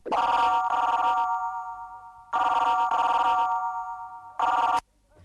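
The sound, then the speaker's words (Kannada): A telephone rings in three bursts, two long steady electronic trills followed by a short clipped one before falling silent, loud and alone with no talk. “ಆ phone ಎತ್ಕೊಳ್ಳಿ.”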